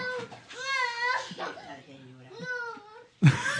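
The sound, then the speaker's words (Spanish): A little girl crying in long, wavering wails with sobbing breaks, loud and unaccompanied, cut off by a brief sharp burst at the end. “Si no donan, seguirá llorando la niña.”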